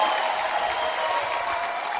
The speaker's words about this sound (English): Clap your hands for Bishop Francis Hammond.